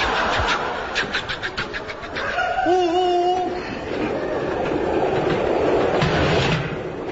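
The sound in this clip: A train running on rails, a steady, loud rumble with rhythmic clicking near the start and no voices.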